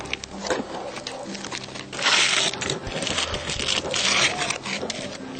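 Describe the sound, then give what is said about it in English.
Crinkly rustling and tearing of plastic packaging as a vegan stuffed ham roll is opened, with steady scraping handling noise broken by two louder crackling bursts. “Now I'll open our vegan stuffed ham roll.”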